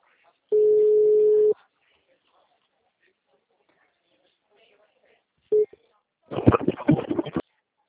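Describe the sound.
Ringback tone of a telephone call placed to a client's phone: one steady, clear tone of about a second, a long pause, then a brief second tone, after which a voice is heard on the line.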